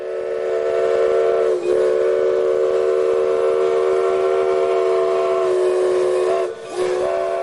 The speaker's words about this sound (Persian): این خط آهن که در اصل توسط دنبر ریو گرانده در سال 1882 ساخته شد دلیل وجود دورانگو است.